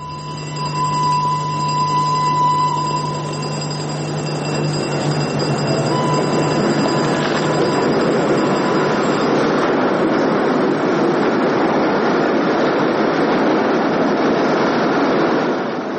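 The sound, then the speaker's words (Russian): A locomotive pulls in under the vaulted roof of Chiusi railway station with a loud rumbling roar that swells and then holds, while steady tonal whines sound in the first seconds and fade. “Гвида на вокзале в Кьюзи с букетом цветов. Под своды входит локомотив.”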